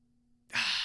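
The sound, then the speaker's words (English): A breath held and then exhaled through the mouth during a guided breathing exercise. After near silence, a soft, breathy rush of air begins abruptly and stays steady until the end. “And then we're going to let it out just like that.”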